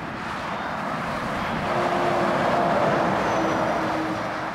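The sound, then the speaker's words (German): Heavy trucks thunder past in quick succession on the national road from Montreuil-Bellay to Loudun. Their loud, continuous low roar of traffic swells toward the middle without a break, and no voices are heard. “Auf der Route Nationale von Montreuil-Belley nach Loudun donnern die Laster im Sekundentakt vorbei.”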